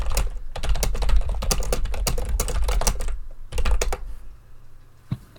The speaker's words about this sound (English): I better type that into the chat.